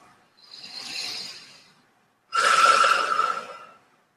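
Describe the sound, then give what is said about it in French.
Two slow, breathy rushes of air during a guided stretching and breathing exercise: a drawn-out inhale, a short pause, then a longer and stronger exhale. Both are soft and airy, with no talk. “Et on inspire et on expire doucement.”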